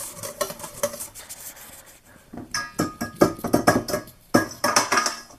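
A whisk beating a mixture in a bowl, producing rapid scraping strokes and light clinks against the sides that grow louder and busier in the second half, with no talking.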